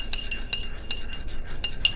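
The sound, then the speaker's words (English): A spoon stirs in a cup, giving a run of light, high metallic clinks at uneven intervals over a soft, steady background hiss. “and I'm going to stir it.”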